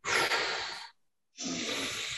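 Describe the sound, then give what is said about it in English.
Deep breathing during a belly-breathing exercise: two long, loud breathy rushes of air, each just under a second, separated by a short silence, with no talk. “So then breathe in and push your hands out. Blow out and push in. Breathe in and push out.”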